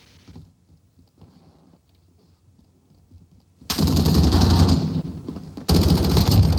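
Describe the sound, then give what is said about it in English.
Automatic gunfire in the video game Runnin' With Rifles Reloaded, preceded by faint scattered sounds, then loud sustained firing that breaks off briefly and resumes just as hard. “We've got shots fired.”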